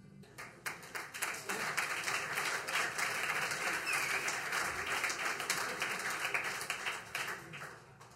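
An audience at a stage event applauds with dense, steady clapping that runs for about eight seconds without pause and stays fairly even in loudness.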